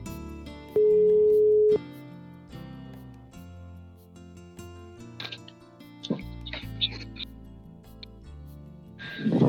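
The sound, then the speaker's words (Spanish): A telephone call being placed: a single steady electronic tone lasting about a second, then faint scattered clicks and ticks, ending in a short burst of noise. “dame un minutito que ahora la llamo”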